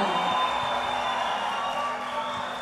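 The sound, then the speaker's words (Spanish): Stadium crowd at a football match applauding as the forwards, Neymar among them, are announced: a broad, even roar of clapping and cheering that holds steady throughout. “Bien acompañadito, siempre, Neymar. Ídolo. Muito aplaudido”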